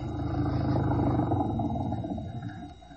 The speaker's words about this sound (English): Hop in. It's an old flivver. The guy driving it was a shriveled up little squirt that could have been 60 or 100.